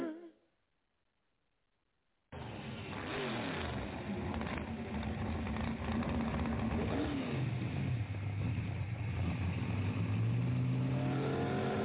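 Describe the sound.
A car engine roars in after about two seconds of silence as the car makes a U-turn, revving loudly and continuously, its pitch sweeping up and down.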